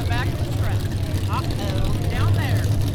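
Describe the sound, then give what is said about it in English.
Monster truck engine at a county fair mud bash, a loud, steady, low rumbling drone that runs through the whole clip beneath a person talking. “we've moseyed into like the mud pit for the monster truck mud bash. It's really dusty and dirty. Hope I don't get my new shoes dirty, but it's really loud here. Billy Boy's toy is getting ready to roll down.”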